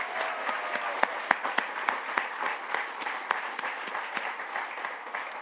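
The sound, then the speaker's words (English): Audience applause, a dense steady patter of many hands clapping, with a few sharper claps standing out now and then and no voices on top. “can you please add another hand for Cara and Jesse, please?”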